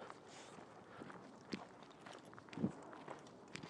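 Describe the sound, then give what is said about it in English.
Footsteps on a night walk outdoors near Kew and Chiswick bridges, faint and soft against a steady background hiss, with a few light impacts spaced irregularly. “I've several times now lengthened my walk. First of all, I'm going to go and to Kew Bridge, then to Kew Railway Bridge, now I'm going to Chiswick Bridge”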